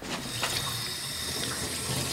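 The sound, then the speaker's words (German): Running tap water as children wash their hands: a steady splashing flow under the faucet, even in level throughout and without voices. “Die Kinder waschen sich die Hände.”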